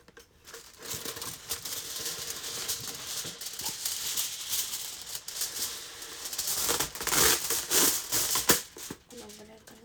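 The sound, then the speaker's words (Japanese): Aluminum foil being handled, giving a continuous crinkling and crackling with many sharp crisp rustles that grow louder and denser toward the end. “それじゃあちょっとアルミホイルを準備します。”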